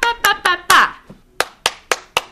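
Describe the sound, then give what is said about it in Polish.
Hand clapping during a child's music aptitude test: crisp, sharp claps in two groups of four separated by a brief pause, with a voice sounding over the first group. “A może spróbujemy teraz trochę poklaskać.”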